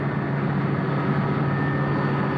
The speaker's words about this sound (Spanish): Lentamente el helicóptero, siguiendo las instrucciones de Michael, va acercándose al Tajo.